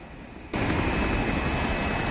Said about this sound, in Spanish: El avión aterriza en un aeródromo que sobrevuelan varios helicópteros.